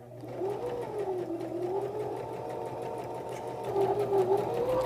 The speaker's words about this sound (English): Now you're going to use your back stitch button to go backward a couple stitches to secure the beginning of the row of stitching. And now we'll go forward again.